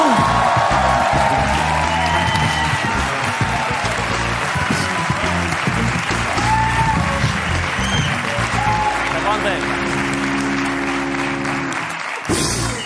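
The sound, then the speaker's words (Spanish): Audience applause greets a guest being introduced on stage, a dense, loud and sustained clapping that holds steady throughout, with some whoops and cheers rising from the crowd. “Así que pido un aplauso para Jorge Ponce”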